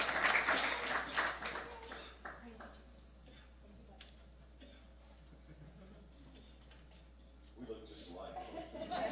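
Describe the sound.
An audience applauds to welcome a speaker at a church service. Loud clapping at the start fades to a quieter stretch, then swells again near the end, with voices mixed in.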